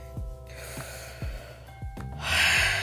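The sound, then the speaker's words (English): A deep breath taken by someone steeling themselves before reading out voting results: a soft, breathy rush that swells near the end into a louder, airy exhalation, with no talk over it. “So I'm gonna just take a deep breath.”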